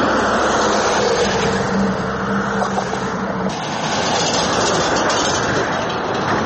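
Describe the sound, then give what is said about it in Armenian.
A heavy vehicle rumbles across a worn 640-metre bridge linking Abovyan and Nor Hachn in Kotayk, a dense, steady roar with a deep low rumble running unbroken through the whole stretch. “Եթե կանգնեք Կոտայքի Աբովյան նոր հաճն քաղաքներն իրար կապող 640 մետրանոց կամուրջի վրա ու այդ պահին որևէ ծանր մեքենա անցնի, ցնցումներ կզգաք ու նման ձայներ կլսեք։”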